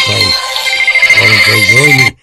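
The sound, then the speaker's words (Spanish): A telephone rings with an incoming call: a steady, high ringing tone runs for about two seconds alongside a voice, then stops abruptly. “Aquí entra una llamada.”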